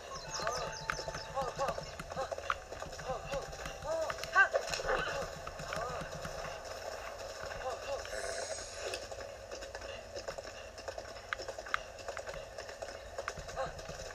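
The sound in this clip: Video game horse hooves clip-clopping at a gallop, with occasional whinnies. The rhythmic hoofbeats stay fairly faint beneath a person talking throughout.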